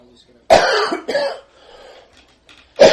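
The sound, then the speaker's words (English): Harsh coughing as someone tries to bring up phlegm, with a few loud bursts separated by quieter throat sounds. “pardon me while I figure out why I'm trying to cough up some phlegm here”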